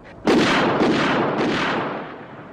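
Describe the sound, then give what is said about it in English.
A gunshot in a war film scene: one sudden loud blast that rolls on in a long rumbling decay over about two seconds, with no talk over it. “And Kirk Douglas is like, nah, that's not a good enough reason, and then shoots him.”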